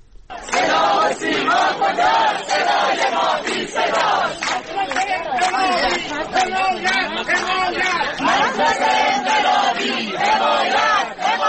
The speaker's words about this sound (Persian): این صدای تجمع کنندگان در شیراز است.